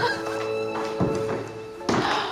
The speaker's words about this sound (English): Robbie opens some large double doors.